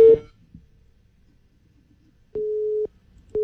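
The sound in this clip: Busy tone from a phone call that is rejected immediately: steady mid-pitched beeps, a brief one at the start, then a half-second beep after a long silence and another beginning at the end, with no talk.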